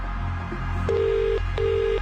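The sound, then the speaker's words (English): Ringback tone of an outgoing telephone call to a radio cash contest entrant: two steady, mid-pitched rings separated by a short gap, over a low background hum. “We're making this call right now. And you need to answer within five rings.”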